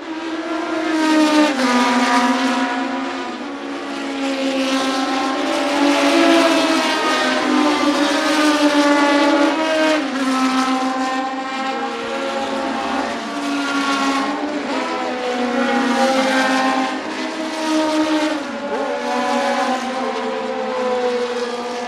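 Race car engines rev loudly together on a track, a grid of high-powered cars roaring in a dense, sustained drone with wavering pitch for over twenty seconds.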